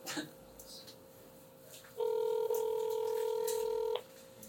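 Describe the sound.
Ringing tone of an outgoing phone call that goes unanswered: one steady, loud electronic tone that lasts about two seconds, with a brief dip partway through, set between quieter stretches of background noise.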